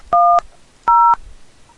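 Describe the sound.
Telephone keypad tones entering a menu selection: two short, steady dual-pitched beeps of equal length with a clear gap between them.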